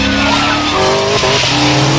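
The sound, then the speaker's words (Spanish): A car engine revving hard with squealing, skidding tires during a police chase. The loud, continuous roar climbs in pitch, dips briefly, then climbs again as the car accelerates and brakes through traffic. “El agente Morgan frena y los esquiva. ¡Acelere a 90 kilómetros por hora!”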